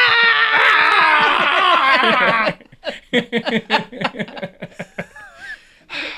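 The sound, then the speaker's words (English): A voice imitates Professor X screaming: a loud, sustained, wavering scream of about two and a half seconds, then a stretch of choppy, bursting laughter. “You know what? Professor X screaming?”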